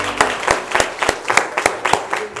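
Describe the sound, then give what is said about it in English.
Congregation clapping in praise at a church service: sharp claps land on a steady, even beat, roughly in unison, repeating many times at a moderate pace. “Let's give him another clap of praise.”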